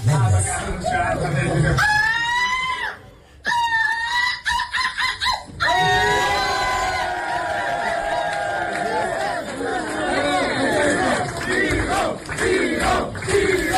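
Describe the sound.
An audience chants the name of Vigo as a contestant from Vigo is crowned runner-up, many loud overlapping voices shouting together in repeated swells with brief dips between them.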